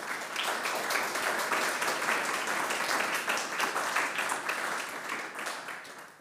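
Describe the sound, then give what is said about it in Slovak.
An audience applauds after a presentation, producing a thick, even wash of many hands clapping that stays loud for about six seconds before easing slightly at the end. “Tlieskali sme teraz Tomášovi Kramplovi z farnosti svätého Martina v Bratislave.”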